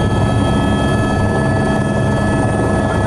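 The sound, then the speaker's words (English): Loud, steady engine and rotor-like drone from an aircraft in flight on its approach into Kathmandu Airport, continuous and even throughout with a few sustained tonal hums and no voices. “We've been flying for about an hour. As we make our approach into Kathmandu Airport, it's been an overwhelming experience.”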